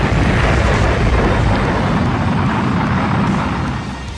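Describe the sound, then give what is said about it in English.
A rocket launch sound effect follows a countdown: a deep, loud, continuous roaring rumble that holds steady and then eases off slightly near the end. “We are cleared for takeoff. 10, 9, 8, 7, 6, 5, 4, 3, 2, 1, fire!”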